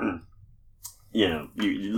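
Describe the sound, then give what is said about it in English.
A single sharp click of a lighter being struck by someone smoking, quickly followed by people talking. “you can hear the lighter go”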